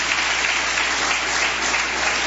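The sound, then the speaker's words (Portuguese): A church audience claps during worship, applauding for Jesus. The clapping is a loud, dense, continuous roar of many hands with no pause or voices. “Bate palmas para Jesus. Aleluias.”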